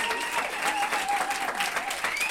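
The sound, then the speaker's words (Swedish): Applause for a contestant in a company competition game, a dense and even clapping sound held at a steady level, with some voices mixed in. “Ja, det är bara att applådera och gratulera.”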